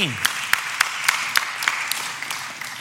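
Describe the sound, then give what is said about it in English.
An audience in a church claps during a sermon, with a steady series of sharp, evenly spaced claps that form a regular beat and soften slightly toward the end. “Yeah, now you're clapping. You didn't clap earlier when Philip introduced me.”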